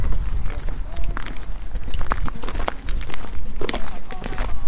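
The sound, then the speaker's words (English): Footsteps walking outdoors on the way toward a castle, a steady run of steps under continuous rough, noisy background. “Can we walk up towards the castle on our walk out here?”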